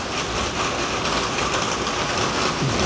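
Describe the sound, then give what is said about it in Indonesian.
Rain falling as a continuous, even hiss that keeps a steady level for the whole stretch, with no voices over it. “Di sini lagi hujan.”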